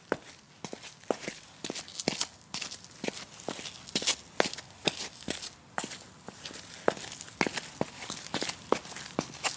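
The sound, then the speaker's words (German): Footsteps of people walking across a city park toward a semicircular seating area, a steady run of many crisp, even steps that continue throughout without talk. “Siehst du diese halbkreisförmige Sitzfläche? Komm, wir gehen gemeinsam hinüber.”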